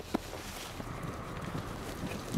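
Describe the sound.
Hooves of horses ridden outdoors during training for street duty strike the ground in a few soft, irregular clops, partly masked by constant low wind rumble.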